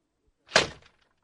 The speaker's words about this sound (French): Elle sort en claquant la porte.